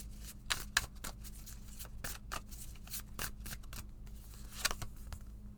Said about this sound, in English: let me pull a card for everybody